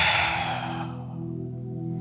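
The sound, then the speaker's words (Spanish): A deep exhale during a guided breathing exercise, a soft, airy whoosh that fades away within the first second and leaves a low, steady hum underneath. “el dedo pulgar derecho va sobre el izquierdo y alamos las manos inhalando y exhalamos”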